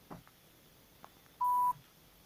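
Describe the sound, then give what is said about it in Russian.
One short touch-tone telephone dialing beep, clear and steady against near silence, preceded by a few faint clicks. “Так, звоним.”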